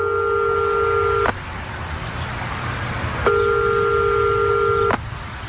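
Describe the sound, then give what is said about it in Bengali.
Telephone call tones as a dialed call is cut off: two long, steady electronic beeps separated by a pause, each ending abruptly, over a constant low background rumble. “ফোনটা তোলো দিঘি। মানে কি, লাইনটা কেটে দিল?”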